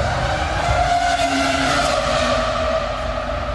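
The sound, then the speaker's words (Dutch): A racing car engine roars continuously and loudly, a dense, steady howl with a sustained high whine running through it from start to finish. “that sound is just so good, man. I mean, oh. it's the greatest sound of a racing car ever.”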